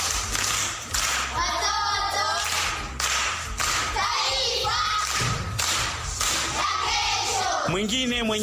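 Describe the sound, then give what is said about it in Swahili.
Pupils at a primary school clapping for a schoolgirl who has just recited a proverb: loud, rhythmic bursts of clapping with brief dips between them, mixed with voices calling out. “Makofi kwa shangazi.”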